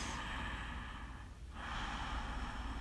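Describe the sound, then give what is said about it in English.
A deep breath in, a soft, airy rush of inhaled air that holds steady and quiet, with a brief dip near the middle before the breathing continues. “Take a deep breath.”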